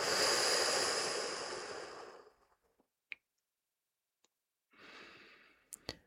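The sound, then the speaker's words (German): A deep, slow exhale during a guided relaxation breathing exercise: a loud, breathy rush that fades over about two seconds, then near silence with a few small clicks before a softer second breath. “Und so atmen wir nochmal ein und ganz tief aus.”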